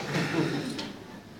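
A chair is moved during a hadith study lesson, a brief scraping slide lasting about a second that fades out at the end.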